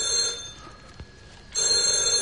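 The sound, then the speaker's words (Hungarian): A telephone ringing: a bright, trilling ring heard in two bursts separated by a pause of about a second, fairly loud and with no talk over it. “A telefont majd én felveszem.”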